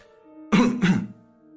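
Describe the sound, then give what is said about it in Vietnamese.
Two men cough in quick succession, two short, rough, fairly loud bursts close together, with a low steady hum underneath. “Hai tên đi cùng Trương Thủy Sinh ho lên hai tiếng”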